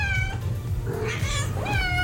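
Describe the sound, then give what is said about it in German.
A cat meows briefly over a low, steady rumble; the call is short and fairly faint. “Und gleich geht's bei uns um die Katze.”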